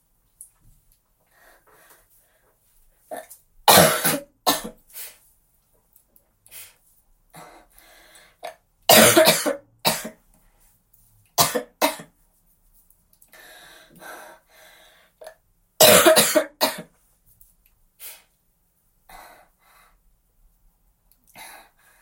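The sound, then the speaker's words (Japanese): Coughing from a person: several sharp, loud bursts, some in short clusters, separated by quiet stretches of soft breathing. “咳出ちゃってごめんなさい。”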